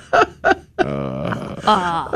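A person groans: two short grunts, then a long drawn-out moan and a second moan at the end, all fairly loud with no other speech.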